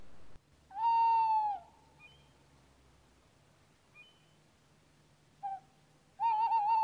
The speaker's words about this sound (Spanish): El autillo, la lechuza más común de Suecia, una puede escuchar desde enero y adelante. Suena así.